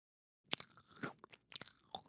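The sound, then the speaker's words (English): Quiet, close chewing is heard, made up of several irregular crisp crunches and wet mouth noises. The crunches come in uneven bursts with brief pauses between them. “That is the sound. What was it? Of a genius chewing.”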